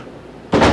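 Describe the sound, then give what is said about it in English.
A door is shut with a single short, loud thud that cuts through quiet room tone near the end, then quickly fades. “I'm going to shut this door somewhere.”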